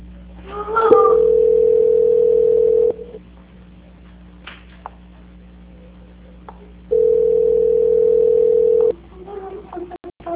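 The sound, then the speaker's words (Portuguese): Telephone tones sound while a call to Banco Santander is transferred: two long, steady mid-pitched beeps of about two seconds each, separated by a stretch of near silence. “eu estarei transferindo a sua ligação para o controle de qualidade do Banco Santander, tá bom? A ligação vai ficar muda por alguns minutos, mas não desligue, por favor. Obrigada. Transferência.”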